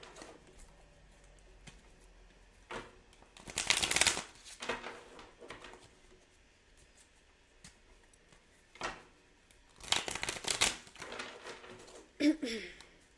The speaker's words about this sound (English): Right, so let's get one tarot card.